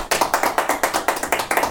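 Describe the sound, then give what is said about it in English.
Crisp, evenly spaced claps in a radio studio from a few people applauding a guest, a quick, steady run of sharp hand slaps, fairly loud and with no talk over them. “Give Joe a round of applause, guys.”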